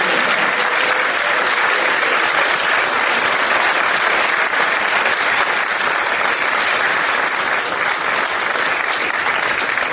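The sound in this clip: An audience gives a warm rock-and-roll welcome to a guest with loud, dense applause. The clapping stays continuous and even throughout.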